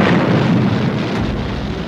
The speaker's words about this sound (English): Countdown for blastoff. X-minus 5, 4, 3, 2, X-minus 1, fire.